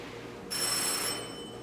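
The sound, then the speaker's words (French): A bell rings once, just after a machine is switched off, in a workshop where a plate is pulled across a surface. The bright, buzzing ring lasts about half a second over a low steady hum, then cuts off. “Il éteindra la machine et il tirera une plaque sur une surface. On entendra une sonnerie.”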